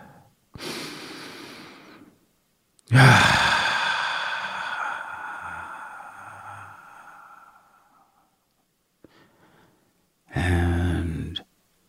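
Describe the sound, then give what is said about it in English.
A slow deep breath heard alone: a hissing inhale, then a long, loud sighing exhale that fades over several seconds, followed after a quiet pause by another breath. “As always, if you're ready, let's take a deep breath.”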